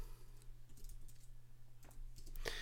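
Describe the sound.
Typing on a computer keyboard comes through as quiet, irregular runs of soft key clicks over a low steady hum, with a slightly busier burst of taps near the end.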